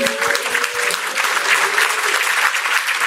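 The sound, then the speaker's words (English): Audience applause at a presentation of a community data book: dense, continuous clapping holding a fairly even level for about three seconds. “applause”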